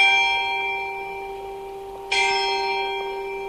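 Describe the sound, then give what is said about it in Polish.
The town hall bell in Leszno rings alone. One deep, resonant tone is already fading at the start, then a second clear strike lands and swells into a long, humming decay. “Dźwięk ratusza leszczyńskiego. Myślę, że na tyle charakterystyczny, że większość mieszkańców rozpozna go”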